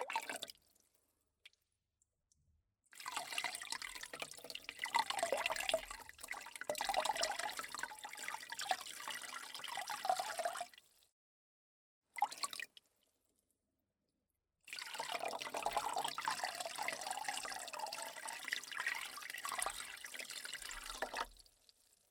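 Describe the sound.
Water poured to rinse during a massage treatment, heard as a trickling, splashing flow in two long stretches with a brief splash between them. Steady and moderately loud, with no talk.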